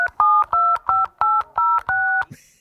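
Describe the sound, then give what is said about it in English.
Touch-tone dialing of a telephone number: a quick run of six loud electronic beeps, each a steady dual tone, with short even gaps between them. “Sounds like someone dialing a number.”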